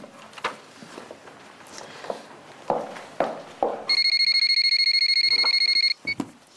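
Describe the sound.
A telephone rings with a bright, rapidly trilling bell for about two seconds, then stops abruptly. A few scattered knocks or steps come before it and a couple of short thuds follow.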